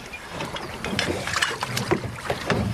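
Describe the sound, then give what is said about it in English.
Oars dip and splash as a rowboat is rowed on a lake. A few irregular watery swishes and splashes rise over a windy hiss, with no talking. “She's trying to row. Short, simple strokes. Don't dig so deep.”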